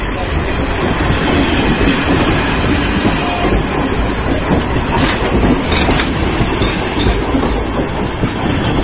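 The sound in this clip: A passenger train runs on its rails at night, heard from inside a compartment. It makes a loud, steady rumble with a constant rattle and clatter of wheels and no pause.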